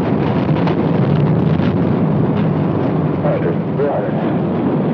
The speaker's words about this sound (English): Reminder, this is what a rocket launch sounds like.